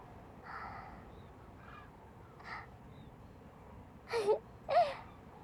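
Cranes calling at their roost, where large numbers have gathered: a few harsh, quiet calls spread across the stretch, the last two bursts louder and clearer than the first ones, with no voices.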